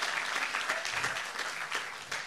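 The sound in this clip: Congregation applause welcoming missionaries back from serving in the mountains of Chiang Mai: dense, steady clapping from many hands that fills the whole moment at an even level.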